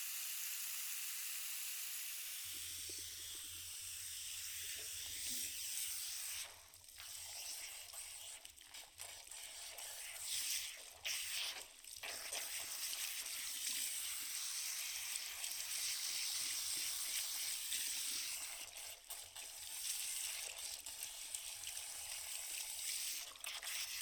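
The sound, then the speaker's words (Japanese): Water runs over hair during a shampoo, with a towel laid over the face, making a continuous broad hiss and splash that dips and swells briefly in level. “では髪を洗っていきますね。”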